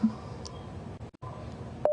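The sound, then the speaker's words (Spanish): Telephone line tones sound while a dropped call is redialed: a short electronic beep, a steady tone broken by a brief silent gap, then a sharper beep at the end, with no voices. “creo que se cortó la llamada. Tenemos mala comunicación con la señora Irma. Vamos a volver a intentar.”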